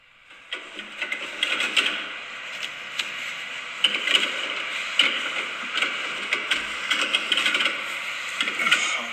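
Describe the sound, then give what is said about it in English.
Toilet paper roll too big for its dispenser, pulled so it rattles and clicks in a rapid, uneven ratchet of taps over a papery rustle, steady and moderately loud for about nine seconds with no voices. “Yes, that's a mystery sound. It's a toilet roll that's too big for its dispenser.”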